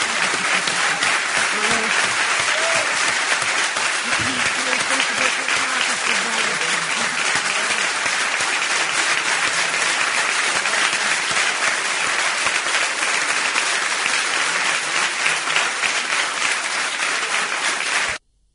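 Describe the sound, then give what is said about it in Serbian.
Audience applause after a live poetry reading at the Kolarac Endowment in Belgrade: dense, steady clapping that holds at an even level for about eighteen seconds, then stops abruptly. “Ja vas molim jedan veliki aplauz.”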